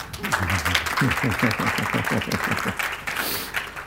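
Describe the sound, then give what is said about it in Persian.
An audience claps at a celebration event, with a dense, continuous patter of hands. Voices are heard over the clapping. “دست که میشه زد”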